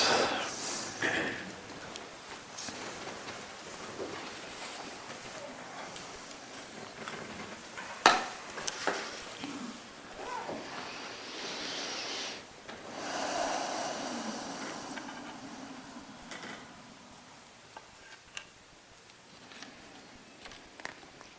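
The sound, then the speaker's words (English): Deep breaths drawn by a group at a meditation retreat: soft, airy inhales and exhales that swell and ease over several seconds, quiet and breathy, with faint rustling and shifting in between. “Okay, let's take a few deep breaths.”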